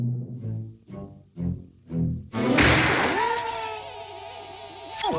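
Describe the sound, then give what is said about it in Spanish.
A cartoon pistol fires in a duel. A few short vocal sounds come first, then one sharp, loud bang, followed by a lingering high ringing whine. “¡Este es un duelo, señor! Recuerden, den 5 pasos, giren y disparen.”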